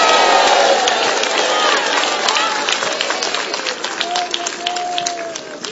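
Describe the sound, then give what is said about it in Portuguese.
A Pentecostal church audience cheers and shouts in a loud, continuous roar of many voices with whoops and calls, easing slightly in level toward the end. “levanta a mão e faz barulho de um povo pentecostal”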